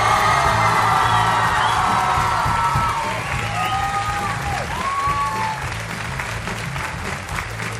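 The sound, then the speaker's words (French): An ovation from a concert audience at the end of an evening of music, honoring an accompanist: loud, dense applause mixed with cheering and high whoops, strongest at the start and easing slightly while continuing throughout. “Une ovation pour Lucas Latruite.”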